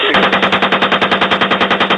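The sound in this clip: Rapid automatic gunfire, fired in a steady, evenly spaced stream of many loud shots that runs through the whole clip with no voices.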